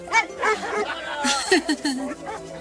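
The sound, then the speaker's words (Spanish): Dogs bark and yelp in a rapid, uneven series of short bursts, some rising into high whining cries. “¡Cállenlos! ¡Perros, cállense ya! ¿Qué no pueden con esos animales? ¡Ya callen a esos perros!”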